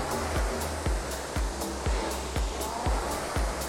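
A rowing machine flywheel spins up under a leg drive, giving a steady airy whooshing roar with regular pulses about twice a second. No voices are heard.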